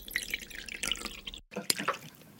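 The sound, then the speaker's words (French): Hot broth is poured from a small Chinese cast-iron teapot to cook langoustine pieces. It makes a quiet trickle with light splashes and drips, and the flow briefly stops near the middle. “Mais là alors, vous allez verser donc, il est où ce bouillon? Le bouillon est juste là. Ah, donc un bouillon. Ah oui, carrément, dans une petite théière en fonte chinoise. Montrez-nous comment vous faites.”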